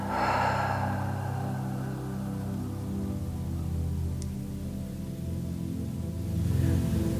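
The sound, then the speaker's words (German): Slow, deep breath drawn in through the nose at the start and released through the mouth near the end, soft airy rushes separated by a long pause over a steady low hum. “Und atme ganz tief durch die Nase ein. durch den Mund wieder aus.”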